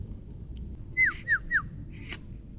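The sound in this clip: A bird calling from across the way gives three short, clear whistled notes, each sliding downward in pitch, in quick succession against a quiet low rumble, followed by a fainter, breathier sound.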